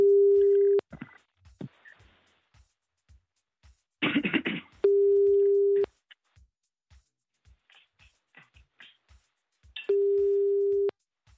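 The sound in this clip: Telephone call tones: three steady, low, evenly spaced beeps, each about a second long. Faint clicks, soft rustling and one short noisy burst fill the gaps.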